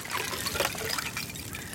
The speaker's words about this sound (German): Winterschwimmen klingt mal so.